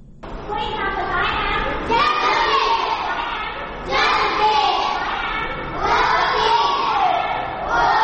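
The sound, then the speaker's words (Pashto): Children's voices at the Rana Child Welfare Foundation school for working children in Peshawar: a loud group chanting or reciting together in repeated, rhythmic phrases that rise and fall. “دا اوازونه د خواري مزدوري کوونکي ماشومانو لپاره په پیښور کې د رڼا چایلډ ویلفیر فاونډیشن په نامه خوانځي دي”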